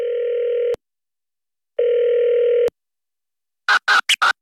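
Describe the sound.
Telephone dial tone sounds in two steady, even bursts, each ending in a click, while a call is being placed. Short bursts of voice follow at the end.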